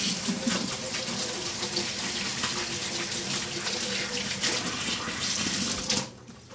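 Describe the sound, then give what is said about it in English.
Running water from a tap while someone washes their hair: a steady, hissing stream of even loudness for about six seconds that then cuts off abruptly, leaving faint trickles. “I'm wiping my hair, washing my hair.”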